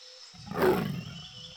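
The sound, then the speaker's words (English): A tiger roars once, a single rough, throaty call that swells to a peak and then trails off, fairly faint and with nothing else around it. “Look, a tiger. It's orange and black.”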